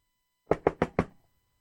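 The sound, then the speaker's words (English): Someone knocks on a house door four times in a quick, even rhythm. The knocks are firm and hollow, and the door is otherwise quiet. “open up now. It's Kane. I know you're there.”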